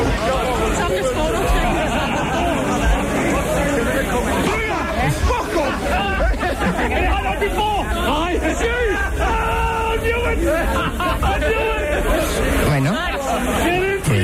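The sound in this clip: Street crowd on La Rambla de las Flores in Barcelona, coming through an open window: a dense, continuous babble of many voices talking at once, with occasional louder calls rising above the steady murmur.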